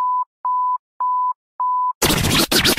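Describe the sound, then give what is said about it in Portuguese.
A five-second radio time signal: four identical pure, mid-pitched beeps at even intervals, then a sudden burst of loud, noisy sound where the fifth tone would fall. “Atenção, emissoras, para o toque de 5 segundos.”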